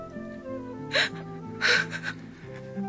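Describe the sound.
A young woman sobbing deeply in a radio drama, with two breathy, gasping bursts of crying over sustained soft background music.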